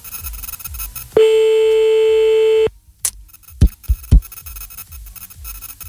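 A telephone line tone sounds while calling someone back: one long, steady, loud beep lasting about a second and a half, then a few sharp clicks over low background noise.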